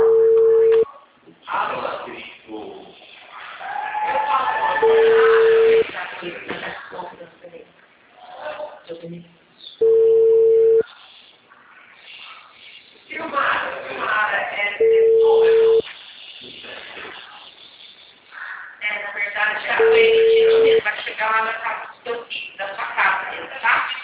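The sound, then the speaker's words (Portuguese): An outgoing call's telephone ringback tone repeats five times: steady one-second low tones spaced about five seconds apart, with a voice talking in between. “Ai, deixa eu ver, peraí que tá chamando. Peraí que eu acho que tá chamando.”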